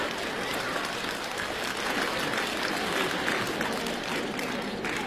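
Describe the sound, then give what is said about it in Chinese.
An audience claps steadily for several seconds. The applause is dense and even from start to finish, with no clear peaks or pauses. “谢谢，掌声鼓励一下。”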